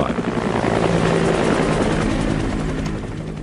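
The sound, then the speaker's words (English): Helicopters roar steadily as they ferry evacuees out of Saigon to U.S. ships offshore on April 29, 1975, a loud, dense rotor and engine wash that barely wavers before easing slightly at the end. “the sound of helicopters ferrying people out of Saigon to U.S. ships offshore, April 29th,”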